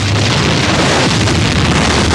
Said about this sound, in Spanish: El tanque dispara.